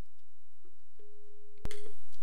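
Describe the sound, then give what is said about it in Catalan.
A steady, low calling tone from an internet voice call holds for under a second, broken near its end by a sharp, loud click. “Vaig a provar-ho, vaig a trucar.”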